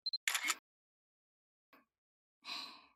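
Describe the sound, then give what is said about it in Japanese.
A camera takes a photo: a brief electronic beep and a couple of tiny clicks, then a short noisy shutter snap, followed later by a faint click and another soft shutter burst, all quiet. “それじゃ、写真行くよ。はい、ポーズ。”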